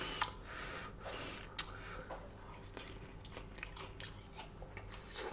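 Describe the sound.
Eating a hot asparagus puff pastry crumble, with faint crisp bites and soft chewing, a few sharper crunchy clicks standing out over a quiet background.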